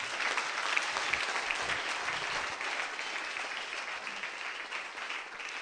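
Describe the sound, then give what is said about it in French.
An audience at a church gathering in Daoukro applauds, producing a faint, steady wash of clapping that holds evenly for the whole clip without pause. “Est-ce que tu ne peux pas acclamer pour cette Jésus?”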